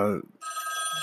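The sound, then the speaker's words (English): A telephone rings, interrupting a talk. A short spoken sound comes first, then a steady electronic ring with a sustained, even tone that holds to the end. “I am truly sorry about that phone call. That was my wife. I had to answer it.”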